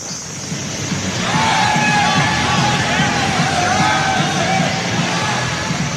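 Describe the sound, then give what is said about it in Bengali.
Joyous shouting and whooping rise from a distance at a night gathering around a fire, with dancing near a river on icy, snowy ground. A dense, constant wash of noise carries scattered cries throughout. “দূর থেকে একটা তীব্র বাজনার শব্দ পাওয়া গেল সেই সঙ্গে উল্লসিত চিৎকার”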